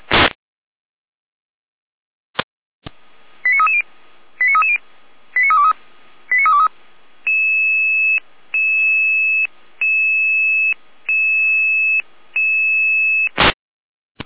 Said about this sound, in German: Hier nou met alarm.